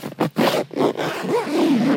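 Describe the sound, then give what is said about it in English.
Zipper scraping shut on white, full-body protective coveralls worn with booties, heard as a few rough, raspy pulls in quick succession, moderately loud and alone. “The first step is to zip yourself into a marshmallow suit, white, full-body protective coveralls and booties.”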